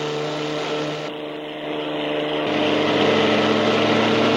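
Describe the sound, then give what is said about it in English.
Engines of racing cars speeding past on a track drone with a steady, buzzing motor roar. The sound dips briefly, then swells louder toward the end, and no voices are heard. “A yellow car spins out and crawls up the slope as other cars tear by.”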